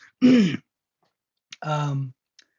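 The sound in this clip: Throat clearing from morning phlegm: two harsh bursts separated by a short pause, the second longer and more voiced, almost groan-like.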